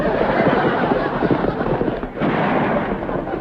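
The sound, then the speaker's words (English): Heavy gunfire as people shoot at pursuers during a chase: a dense, continuous barrage of overlapping cracks and rumbling bursts that stays loud throughout. “They're shooting at us.”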